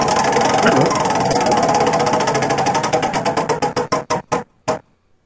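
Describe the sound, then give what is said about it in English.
A prize wheel spins with rapid, even ticking that gradually slows, the clicks spreading farther apart until a few last separate ticks and a stop into silence. “So let's spin the wheel and see what's picked first.”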